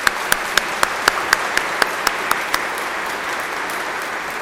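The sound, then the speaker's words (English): Applause from a church audience for a couple celebrating their 40th anniversary: a steady, dense wash of clapping, with a series of evenly spaced louder claps standing out in the first half. “Stand up, you guys. Let's give them a hand. Let's congratulate them.”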